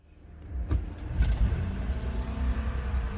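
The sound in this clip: A car drives along, its low engine rumble swelling from near silence to a steady drone, with a couple of soft thumps early on.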